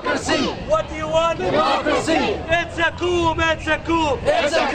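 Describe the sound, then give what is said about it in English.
Morsi supporters in Egypt chant in protest against his removal as president: a loud crowd answers a lead voice in call-and-response, shouting short slogans over and over in a steady rhythm. “That's the sound of Morsi's supporters protesting the removal of their president in Egypt yesterday.”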